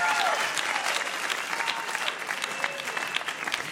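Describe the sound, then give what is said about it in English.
An audience applauds two quiz contestants, a dense, continuous wash of clapping that holds at a fairly even level from start to finish. “Another hand for the two of them.”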